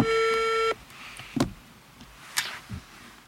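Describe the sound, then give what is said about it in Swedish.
A telephone ringing tone plays as a reporter calls a former security service employee. It holds steady for under a second, then cuts off, and a few faint clicks follow. “nu ska vi se om vi kan slå det här numret”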